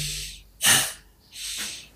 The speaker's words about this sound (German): Und wenn ich ausatme durch die Nase, geht der Bauch rein und das Einatmen geschieht von alleine.